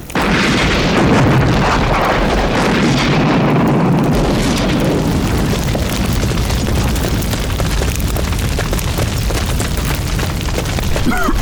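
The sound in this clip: A propane tank taken from a grill exploding: a loud, sustained roar of dense rumbling noise with a crackling texture that stays heavy from start to end.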